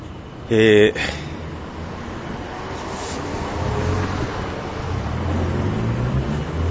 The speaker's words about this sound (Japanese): 車を夜でもブンブン通っているバンコク。